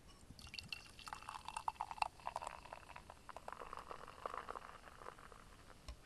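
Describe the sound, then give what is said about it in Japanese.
Spring Valley beer pouring into a rounded, stemless wine-style glass: a steady fizzing, splashing stream that runs for about six seconds at a moderate level, with no voices. “じゃあ、注いできます。”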